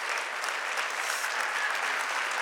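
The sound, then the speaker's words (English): Steady applause from an audience at a talk on women in sports, a dense, even patter of many clapping hands, fairly faint and sustained without pause. “I know, you just want to give her an applause, don't you?”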